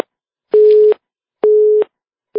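Busy tone after a dropped phone call: two full steady beeps at one fixed pitch with even pauses between, then the start of a third at the end, with no talk.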